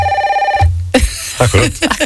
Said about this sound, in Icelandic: Og þá hringir hlustandi